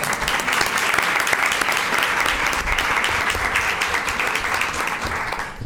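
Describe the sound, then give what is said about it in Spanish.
An audience gives a grandfather steady applause at a short story contest awards ceremony, the clapping dense and sustained at an even loudness throughout. “Un aplauso para el abuelo.”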